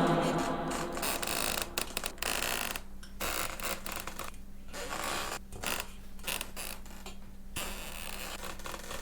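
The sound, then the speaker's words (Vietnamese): A puppet twisting and clattering gives off many faint mechanical creaks and ratchet-like clicks in an uneven run, with no voices. “Con rối vẫn cứ vặn vẹo lách ca lách cách.”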